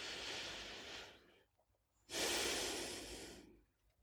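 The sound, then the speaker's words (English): Slow, deep breathing during a guided prayer exercise. Two long, soft, airy breaths of about a second and a half each are separated by a short quiet pause. “Exhale fully. Breathe in slowly and deeply.”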